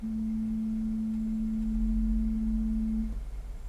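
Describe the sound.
A synthesized tone standing for a whole, undivided monochord string: one steady, pure low note held evenly for about three seconds, then cut off, leaving a faint low rumble.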